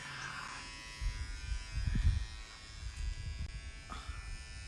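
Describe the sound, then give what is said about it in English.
Electric hair clippers buzz while cutting someone's hair, a steady thin motor whine that thickens into rougher bursts as the blades move through the hair. “It's not cutting. It's cutting, but you're not shaving my head, so relax.”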